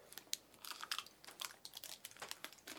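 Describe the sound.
Quiet, moist chewing of someone eating a sweet, in-season strawberry. Many small bites and smacks come in an irregular rhythm, faint throughout, with no talk.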